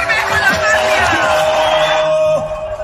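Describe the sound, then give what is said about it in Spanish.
A crowd cheers and shouts to welcome Colombia's president-elect at a rally in Barranquilla, a dense roar of many voices beneath a loud, emphatic speaking voice. “todo el pueblo y toda la gente dice fuerte: ¡Bienvenido, presidente! ¡Bienvenido, Abelardo de la Espriella!”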